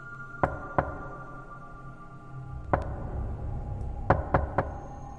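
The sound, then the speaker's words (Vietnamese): Knocking on a door comes as sharp, distinct raps: two close together, a lone knock after a pause, then a quick cluster of three, all over a low steady background hum. “Thế nhưng tiếng gõ cửa ấy lại tiếp tục vang lên.”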